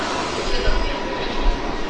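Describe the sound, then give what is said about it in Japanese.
An electric train pulls into platform 2 of a station as a limited express bound for Toyohashi. It makes a steady, broad roar of wheels and motors, with a few heavier rumbling surges. “2番線に電車が参ります。”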